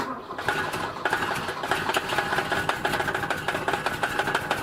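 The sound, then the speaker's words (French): A Volvo car's starter cranks its engine in cold weather in Sweden, a loud, rapid, steady chugging that pulses evenly through the whole stretch. “Il fait froid en Suède. Chers auditeurs, restez à l'écoute. Nous allons essayer de démarrer la Volvo. Deuxième essai, allons-y.”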